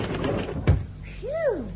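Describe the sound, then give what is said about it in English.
An office door being opened, giving a single solid thud partway through, with a quieter tonal sweep shortly after, set against low background noise. “I'll open the door.”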